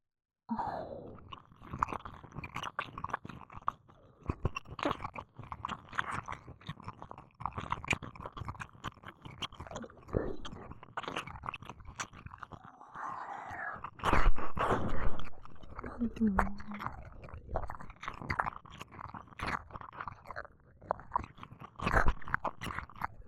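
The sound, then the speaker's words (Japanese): Wet ASMR mouth sounds of a human ear being licked: many close, moist clicks and smacks in a dense, uneven stream, with soft breathy noise and a louder patch of sounds midway. “お耳ピクピクさせてる君、もっと見たいからいっぱい舐めちゃおうっと。”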